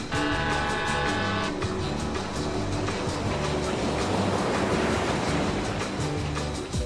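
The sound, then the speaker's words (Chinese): A boat sets out on the sea off Sanya with a continuous rush of water over a low, steady rumble. The sound stays loud and even throughout. “乘船，扬帆，起航。”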